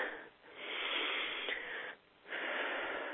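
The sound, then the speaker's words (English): A big, deep breath is drawn in long and airy, broken by two short pauses as the air shifts, with a soft wheezing hiss. “Now let's end this beautiful process with a nice big deep breath.”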